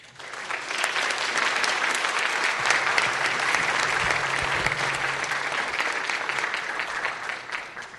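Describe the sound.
Warm audience applause welcoming theologian Norman Wirzba to the lectern, a continuous crackle of many hands clapping at an even, moderate level for about eight seconds, with a low hum underneath partway through.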